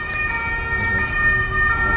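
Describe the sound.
Fire engine siren sounding continuously, a steady high-pitched wail with a low vehicle rumble underneath.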